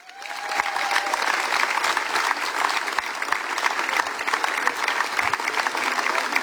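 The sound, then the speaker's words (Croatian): Festival audience applause at a chanson song festival, quickly rising into sustained, even clapping that stays loud and steady for several seconds. “i sad kako smo vježbili aplauzi, tako ćemo i nastaviti, Siniša Pifar!”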